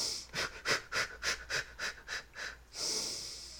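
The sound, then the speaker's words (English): Quick exhaling breaths of a breathing exercise: eight short, forceful, evenly spaced breathy puffs in a steady rhythm, then one longer exhale. “Breathing exercises do help you control your emotions. I know. I have to do them all the time. But I usually do the deep breaths and then the quick releases,”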